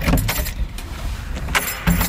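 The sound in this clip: Keys jangle and clink at a door lock leading into a basement, once a seniors' club premises, in a few short bursts of metallic rattle with quieter handling between them.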